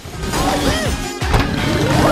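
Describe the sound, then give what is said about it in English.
A car that has been spun out of control smashes into a shop window with one sharp crash about midway, preceded by swooping whistling tones and followed by a steady rumble. “She spins the car and smashes a shop window.”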